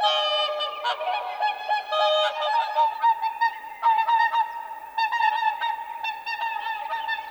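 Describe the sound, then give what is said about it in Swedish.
Whooper swans call in loud, trumpet-like honks, each bird sounding two-note calls; many bright, nasal calls overlap and follow one another steadily throughout, with no voices. “Sångsvanen är högljudd. Varje svan ropar med 2 trumpettoner.”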